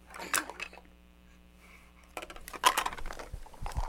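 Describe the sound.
Spoons clink during a child's play: a few light metallic taps and rattles in two short bursts, quiet between them.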